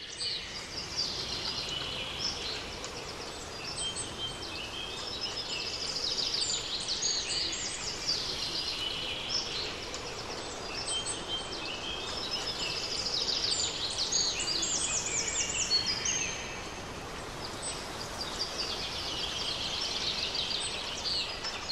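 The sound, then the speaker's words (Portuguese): Birdsong in a garden: dense, continuous high chirping and twittering from several birds, steady in level throughout with no pauses. “Os pássaros cantam sem trégua e a brisa volta a soprar.”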